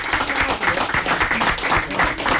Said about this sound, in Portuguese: Um aplauso para a Foi Fabiana.